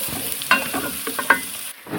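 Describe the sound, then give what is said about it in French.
Garlic, ginger, pepper and onion are stirred in a hot pan with a little oil, a steady soft sizzle broken by a few sharper scraping strokes of the spoon, with no talk. “Là, je mets l'oignon. Voilà. Là, on mélange.”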